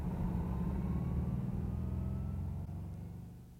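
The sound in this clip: A car engine rumbles steadily while driving toward a warehouse, a low, continuous drone that stays even before easing slightly quieter near the end.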